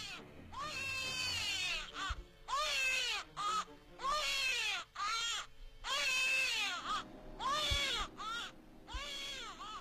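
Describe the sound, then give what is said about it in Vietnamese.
A newborn baby crying in the bushes among wild banana plants on a mountainside, with repeated high, wavering wails that come in a series of long bursts separated by short gasping pauses. “ở trong lùm cây còn có tiếng trẻ sơ sinh khóc.”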